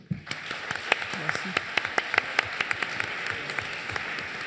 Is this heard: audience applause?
yes